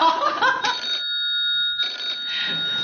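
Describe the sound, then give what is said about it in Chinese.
An incoming call sets off a telephone ring, one steady electronic tone lasting under a second. Busier mixed sound comes before and after it. “喂，闺女，给我打电话什么事儿啊？”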